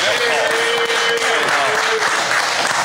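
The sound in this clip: Audience applause and cheering from a live crowd, a dense, loud, steady wash of clapping and shouting that holds at the same level for the whole stretch, with voices mixed into the noise.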